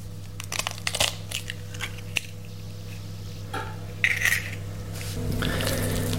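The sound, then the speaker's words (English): An egg is cracked into a bowl holding 250 grams of self-raising flour for bara brith: a few sharp taps and cracks, then softer handling noises, over a steady low electrical hum. “Okay, let's crack the egg.”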